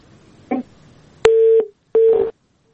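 A telephone busy tone sounds after a call connection drops: a brief click, then two long, steady, mid-pitched beeps of equal length separated by a short gap.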